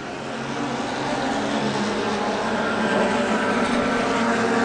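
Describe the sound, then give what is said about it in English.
Engine roar from a field of race cars starting the STL class race at Mid-Ohio: a dense, steady roar that builds over the first second and then holds loud and unbroken. “Looks like we got the start of the STL race. Potentially, they've got green here. Got green.”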